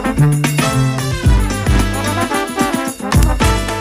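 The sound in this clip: Music from a ten-piece band from Tours, loud and full, with sustained brass-like tones layered over steady percussive hits and a busy, dense mix throughout.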